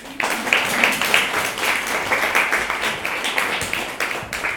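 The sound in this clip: An audience claps to welcome a speaker at an evening talk. The applause is lively, with distinct sharp claps rising out of a dense patter that holds steady for several seconds.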